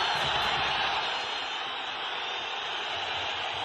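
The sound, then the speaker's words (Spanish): A football crowd jeering at Sevilla's Ramón Sánchez Pizjuán stadium after a home draw against Girona. The dense, sustained roar of disapproval holds at a steady, loud level throughout. “Bronca tremenda en el Ramón Sánchez Pizjuán al empate del equipo sevillista frente al Girona.”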